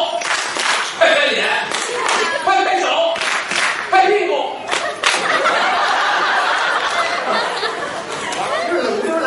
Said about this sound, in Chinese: 咱们大家伙一起拍拍手拍拍手拍拍脸拍拍手拍拍脸